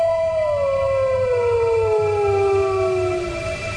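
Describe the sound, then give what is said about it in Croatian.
A wolf howls at dawn: one long, loud, sustained howl with harmonics that slides slowly downward in pitch, held for several seconds over a steady low hum before fading. “Vuk? Usred zore? To ne može biti.”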